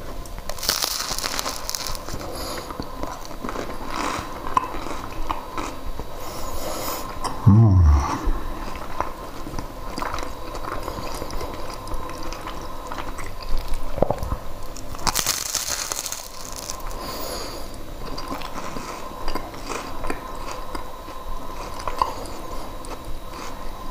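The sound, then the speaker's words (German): Crunchy bites and chewing of toast bread: a few loud crunches stand out from quieter, steady chewing. “So, gleichzeitig ein Toastbrot essen.”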